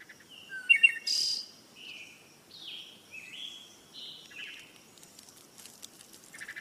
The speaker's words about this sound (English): So birds chirping outside your window may indicate normality